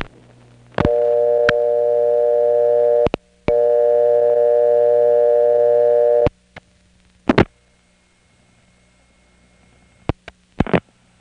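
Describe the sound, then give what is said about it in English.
City ring tone from a Crossbar 5 telephone exchange on a call to a vacant number: two long, steady buzzing tones of about three seconds each, separated by a brief break, followed by several sharp clicks. “in this case we'll hear a burst of City Ring, followed by its own vacant code recording.”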